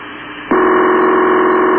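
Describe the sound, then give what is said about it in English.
A telephone line ringing through to Houston, Texas: after half a second of quieter hiss, a loud, steady electronic tone starts and holds unbroken to the end. “It's a phone ringing in Houston, Texas.”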